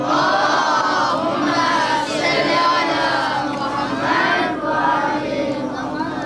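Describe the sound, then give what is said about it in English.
An audience loudly recites salawat together, many voices chanting in unison as one dense, sustained wash of sound that swells and dips slightly without pause. “I want you all to recite one loud salawat.”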